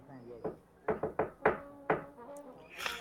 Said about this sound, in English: You knock on the door.